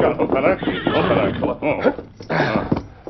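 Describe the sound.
A horse whinnies as riders halt in a western radio drama, a strong, wavering neigh with a few hoof clops, heard under and between a man's spoken lines.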